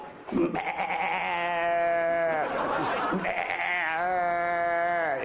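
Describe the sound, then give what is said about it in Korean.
A human voice imitates goats: first a kid's bleating, then a mother goat's. It gives two long, wavering, nasal bleats with a short pause between them. “요번엔 나 이제 짐승 소리 내겠다. 예? 야야야 이렇게 여기는 새끼 염소 소리고 야 그 다음에 그 엄마 염소는 이래 이래”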